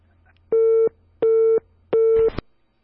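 A telephone busy tone sounds after a call drops through a technical fault: three even, steady mid-pitched beeps with equal gaps, the last one ending in a short burst of noise.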